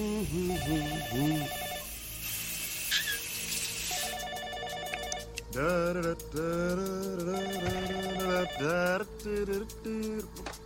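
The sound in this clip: A telephone rings with a repeating electronic ringtone: bright warbling tones in short bursts separated by brief gaps. It stays loud and continuous for about ten seconds.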